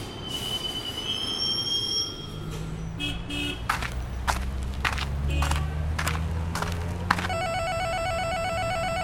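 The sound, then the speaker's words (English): A light-rail train arriving at Downtown Santa Monica station: high, sustained wheel squeals and steady rumble, with a bright repeating bell ringing near the end. “Now arriving downtown Santa Monica Station.”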